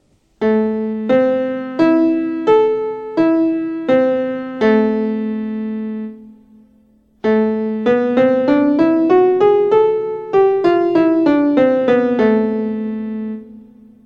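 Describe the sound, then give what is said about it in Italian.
An A minor arpeggio followed by the A melodic minor scale, rising and then falling, played as clear, separate sustained pitched notes at an even pace, with no voices. “Adesso vi facciamo sentire l'arpeggio e la scala minore melodica, ascendente e discendente.”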